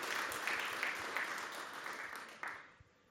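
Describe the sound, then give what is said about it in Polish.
Applause at an award presentation, a quiet, steady patter of many hands clapping that thins out and fades toward the end. “Poprosimy o brawa. I o wręczenie nagrody.”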